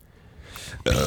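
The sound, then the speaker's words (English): A single short, loud burp after drinking soda bursts out near the end, following a moment of faint low rustle. “There we go. Feel better? We're not even talking about the movie. We're just burping into the fucking camera.”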